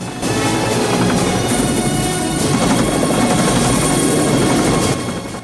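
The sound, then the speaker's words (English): A helicopter makes a rocky landing with a loud, dense rotor and engine roar that holds steady for about five seconds before easing off at the end, with no voices. “as the chopper makes a rocky landing”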